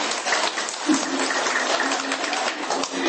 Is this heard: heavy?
no